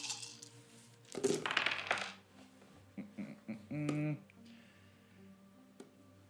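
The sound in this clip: Many dice clatter as they are rolled together in one busy rattling burst of about a second. People talk afterward.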